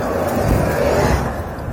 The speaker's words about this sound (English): Hey, there's a bus.